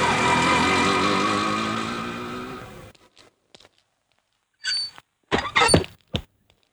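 An auto rickshaw engine idles with a steady, buzzing mid-pitched drone for about three seconds, then cuts off. A few scattered knocks and thunks follow in near silence.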